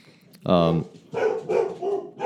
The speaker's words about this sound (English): You can probably hear the dogs in the background